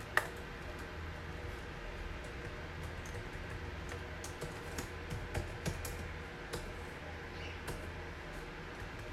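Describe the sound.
Scattered keystrokes on a computer keyboard as a print statement is typed, faint irregular clicks over a steady background hiss.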